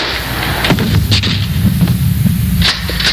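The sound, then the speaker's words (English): A gunshot from a hunt booms heavily, followed by rough, rumbling noise with a few further sharp bursts. “Good shot. Okay, he's dead.”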